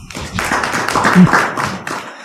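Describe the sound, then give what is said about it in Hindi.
An audience claps together at a talk, a short burst of many hands slapping at once, loud and dense throughout before it tapers off at the end. “ताली बजाओ इनके लिए।”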